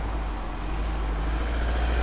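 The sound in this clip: Steady, loud rumble of city traffic as a black cab drives close past a motorcycle, with low engine noise holding constant throughout and no voices.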